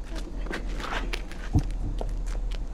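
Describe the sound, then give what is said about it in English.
Footsteps climbing stone steps: a few soft, irregular treads, one heavier thud standing out midway, all under a steady low background hum. “She mounts the stone steps toward the beckoning MC, who guides her to the microphone.”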